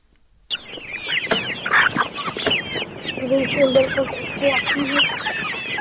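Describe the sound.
Farm poultry, geese, ducks and turkeys, clucking and calling in a busy, continuous chorus that starts abruptly after a moment of silence and carries on throughout.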